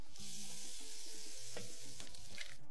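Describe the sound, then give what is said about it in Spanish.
Fried plantain baskets sizzle in hot oil during a second frying, giving a dense, continuous crackling hiss with a few sharper pops, steady and without any talking. “Vuelve a freír las canastitas”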